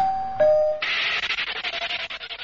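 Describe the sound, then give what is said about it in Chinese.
A two-note doorbell chime rings in a home, one note following the other. A rhythmic rubbing or scraping sound follows and continues to the end. “门铃响”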